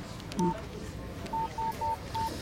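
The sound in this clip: Phone keypad tones sound as someone types a text message: five short, clear electronic beeps, one alone and then four in a quick, even run, over a faint hiss of background noise.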